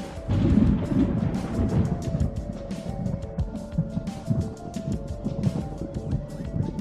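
Thunderstorm rumble under steady, rain-like noise with scattered crackles. The low roar is heaviest in the first two seconds, then settles into a continuous wash.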